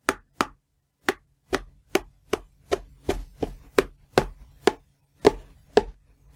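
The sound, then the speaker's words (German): Butter being chopped into small pieces, heard as many crisp, sharp chopping knocks in a fairly steady rhythm with short gaps between strokes and quiet in between, no talking. “Und jetzt hackst du die Butter in kleine Stücke.”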